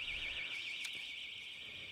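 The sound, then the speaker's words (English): An alarm sounding outside produces a continuous, rapidly warbling high electronic tone. It stays steady and fairly faint throughout, with no voices. “hopefully that will warn you, the alarm out there”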